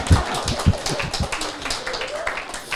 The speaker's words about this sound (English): You can clap your hands.